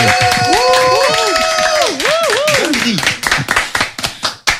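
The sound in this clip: Applause for a student who has just presented an app on a French radio show. A voice speaks first, then a handful of sharp, separate hand claps follow and thin out toward the end.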